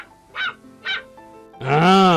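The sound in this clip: A puppy barks: a couple of short, high yips followed by a fainter one, then a longer, louder bark that fills the end.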